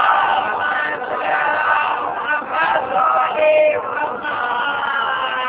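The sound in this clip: A large crowd of worshippers calls out a salawat together in unison, a dense, loud chorus of overlapping voices in rolling phrases with brief dips between them.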